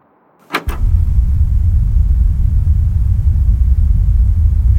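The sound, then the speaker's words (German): An extremely deep drone, sped up several times into audible range, begins after a couple of sharp clicks and becomes a loud, steady low rumble that holds unbroken to the end. “Ein extrem tiefes Dröhnen. Wechseln Sie bitte die CD, Joss. Der Ton ist mehrfach beschleunigt worden und erreicht so eine hörbare Frequenz.”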